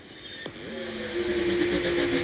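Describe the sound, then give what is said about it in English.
A Lamborghini engine drones as the car drives through sand. Its pitch climbs briefly early on, then settles into a steady hum over a faint, noisy wash. “We got the Lambo. We're rolling through the sand.”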